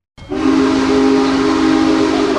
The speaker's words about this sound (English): steam locomotive, has rolled into Altoona for its last multi-day stop in Pennsylvania.